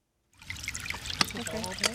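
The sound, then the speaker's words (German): Gentle babbling and trickling of a small brook, the upper Eger river near its source in the Fichtelgebirge, a steady burbling water sound after a brief silence at the start. “Anfangs plätschert die Eger noch als Bach leise dahin.”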